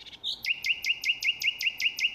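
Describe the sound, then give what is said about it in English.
Nightingale song: a brief opening whistle followed by a rapid, evenly spaced run of many sharp, high repeated notes, faint and alone. “The nightingale's punctual arrival every year on the same date never ceases to amaze me.”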